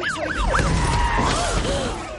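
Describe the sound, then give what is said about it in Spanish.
An ambulance siren wails as the vehicle crashes in a park. It gives quick rising and falling sweeps, then slower wails, all over a dense rumbling, clattering mechanical background. “Una ambulancia se estrella en el parque.”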